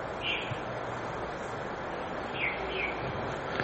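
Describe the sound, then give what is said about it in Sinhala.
A bird calling outside gives a few faint, short, high chirps over a steady hiss, spaced apart with no talking. “අන්න කුරුල්ලෙක් කෑ ගහනවා. ඒ කුරුල්ලා එළියේ ඉන්නවා, ඌ කෑ ගහනවා”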